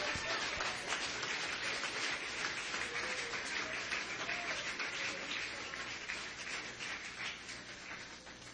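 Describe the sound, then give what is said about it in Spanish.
Audience applause at a religious testimony meeting, a dense, steady patter of many hands clapping, fairly faint, holding level for most of its length before easing slightly toward the end. “Démele ese aplauso. No me deje aplaudiendo a la hermana sola.”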